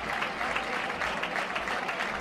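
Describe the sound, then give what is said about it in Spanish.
Sustained applause from a bullfight crowd giving an ovation to a matador, a steady, dense patter of many hands clapping throughout, fairly soft and without a break. “Gran ovación del público al maestro Morante.”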